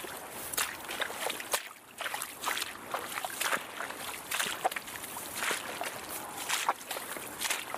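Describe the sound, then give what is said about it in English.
Wet squelching with sloshing, repeated many times in a steady, uneven rhythm of soft, moderately loud squishy pulses, and no talk over it. “And this is us getting into the ASMR market again. If you like squelch, to fall asleep to the sounds of this. If you like to fall asleep, if one of your triggers is squelching,”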